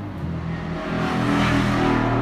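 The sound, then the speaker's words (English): A motorcycle passing by, heard as a steady, low, humming engine drone that swells slightly louder toward the end. No talk is heard. “So that was a motorcycle.”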